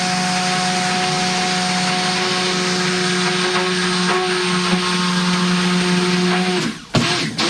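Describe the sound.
A motorized mixer whirs as oils are blended with caustic sodium hydroxide lye in a mixing bowl, a loud steady droning hum with a fixed tone that cuts off abruptly near the end.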